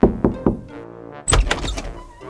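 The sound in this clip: Knocking on a door, three evenly spaced knocks, followed by a soft creaking as the door opens and then a burst of louder, busier sounds.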